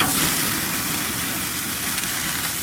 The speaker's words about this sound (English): A reminder to hear, or rather keep hearing, for this burger flip sound this hour.